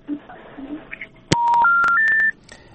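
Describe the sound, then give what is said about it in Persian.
A dropped phone call, the disconnected line giving a click followed by three steady electronic tones stepping upward in pitch, each lasting about a third of a second, after a faint murmur of noise. “فکر میکنم قطع شد.”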